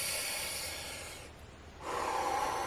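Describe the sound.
A deep breath drawn in during a guided breathing exercise: a long, airy rushing sound that eases briefly mid-breath, then swells louder as the inhalation continues.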